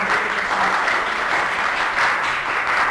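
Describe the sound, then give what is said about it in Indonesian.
Audience applause for a speaker at a talk on Chinese-Indonesian culture, a steady, even patter of many hands clapping that holds at one level for about three seconds. “Mari kita beri aplaus beliau.”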